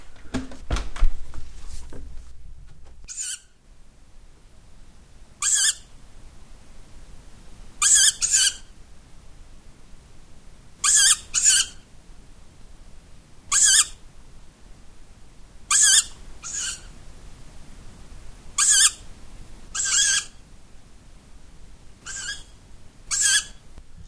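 Owls call outside at night with many short, shrill screeching bursts at irregular intervals, often in quick pairs, over a quiet background. Some low rustling comes first.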